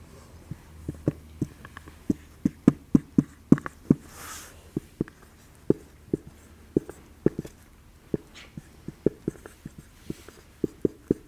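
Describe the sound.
Handwriting with many sharp tapping and scratching strokes in an irregular, quick rhythm, crisp and moderately loud against a quiet background.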